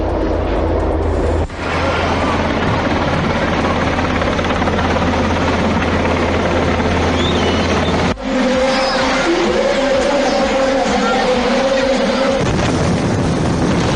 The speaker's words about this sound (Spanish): Este es el sonido del Belma 3 sobrevolando el Estadio Municipal de Las Gaunas.